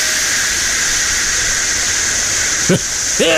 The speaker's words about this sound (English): He cracked open the can and it's just Busch